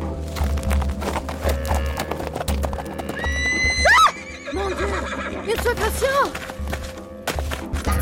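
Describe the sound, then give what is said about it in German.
A horse whinnies as its rider whips it and rides out of the bushes. A loud, rising neigh is followed by several shaky whinny bursts over steady low rumbling and hoof clip-clop. “In diesem Augenblick versetzte ich meinem Pferd einen Schlag mit der Peitsche und ritt aus dem Gebüsch heraus.”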